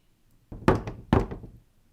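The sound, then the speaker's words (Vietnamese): Light knocking on a room door: two soft, hollow knocks about half a second apart, alone against near silence. “có bóng người con gái đến trước cửa phòng, đưa tay gõ nhẹ nhẹ vào cửa.”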